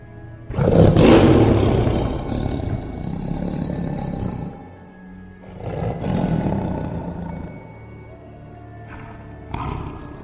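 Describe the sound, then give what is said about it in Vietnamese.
A black tiger roars with deep, rumbling power: one long, loud roar, then a second shorter roar, and the start of a third near the end. “con hổ đen trong nháy mắt nhảy xuống, đứng lừng lững, chân của nó chõi ra, lông bờm dựng lên, gầm lên một tiếng đầy uy vũ.”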